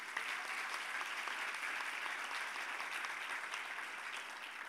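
Applause from a church audience during a sermon, a dense, steady clapping that holds at an even level for about five seconds without pause.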